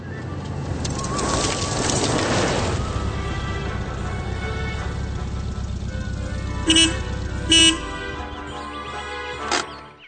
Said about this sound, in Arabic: من الواضح جدا أن المرأة يسمع هنا صوت سيارة وأن شخصا ما يصل إلى الريف تماما